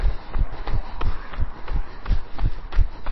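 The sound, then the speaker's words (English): Footsteps of a person on a fartlek training run heading toward Loughton, quick, even thuds repeating in a brisk, steady rhythm throughout, with no talking. “On we go. I'm still running. And we're going to run hard.”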